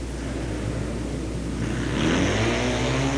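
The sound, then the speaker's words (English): A Triumph 750 motorcycle racing around a track on the final lap gives a steady, loud engine drone, its tone climbing in pitch partway through as the bike accelerates. “The leader, number 7 in, Frank Bardero from Hera, Oklahoma, riding a Triumph 750. And there's the white flag, 1 lap to go.”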